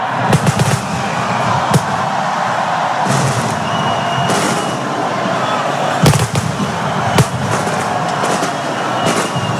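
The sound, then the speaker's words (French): Mascletà firecracker barrage at the Bayonne street festival: a dense, continuous crackle and roar of rapid bangs, broken by many sharper, louder blasts. “Vous l'entendez peut-être derrière moi, donc la mascletà, c'est feu. Alors c'est pas fait de feu d'artifice traditionnel, c'est, on va dire, du bruit, mais qui est lancé depuis le milieu de la Dour”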